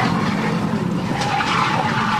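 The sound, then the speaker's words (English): Tires skid as a car loses control before crashing into a ditch, a continuous harsh, noisy roar that stays steady and loud throughout, with no clear impact standing out. “gets around in front of her, loses control of the car and crashes in a ditch.”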